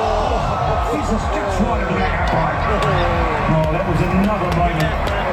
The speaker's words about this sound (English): This was the sound of the crowd when the Aussies just missed a goal in the 89th minute.